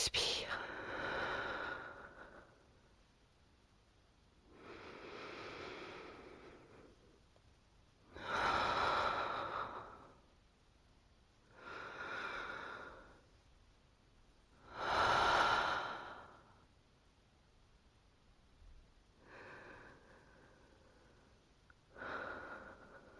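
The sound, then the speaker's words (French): Slow, deep breathing during a guided relaxation exercise, with about seven long, airy breaths in and out spaced evenly apart. The breaths are soft and close, with a slight nasal edge on some inhales, and nothing else heard. “Trois respirations. Inspire.”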